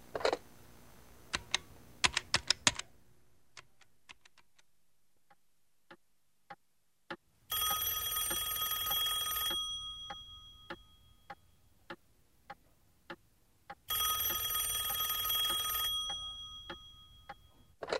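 A telephone rings after a call is placed: two separate bursts of bright electronic ringing, each about two seconds long, with a long pause between them. Keyboard-like clicking comes before the rings, and light regular ticking runs through the gaps.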